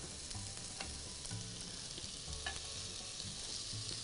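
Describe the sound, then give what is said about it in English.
Zucchini slices and bread sizzle on a grill pan in a steady, even hiss of frying, with a few faint clicks and pops scattered through it and no talking. “Just press, press against the surface of the bread so it gets nice contact with the surface of the grill pan. Get some nice grilling action here, nice grill marks.”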